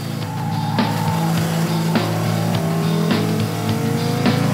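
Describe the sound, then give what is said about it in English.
A V10 race car accelerates hard off the starting line with heavy wheelspin, its engine a loud sustained roar with rising harmonic whine and periodic gear-change bursts, no speech. “Masses of wheel spin off the line, down to the first corner. He has got to tread carefully. He knows that that big V10 landmine will bite.”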